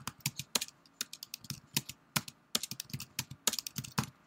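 Rapid typing on a computer keyboard: many crisp, clicking keystrokes in an uneven, busy rhythm with brief gaps, alone without voices.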